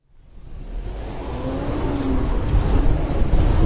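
A white Toyota Corolla climbs a small hill on Pacific Coast Highway in Wilmington, its steady engine and road noise growing gradually louder, with a faint tone drifting upward through the middle of the run.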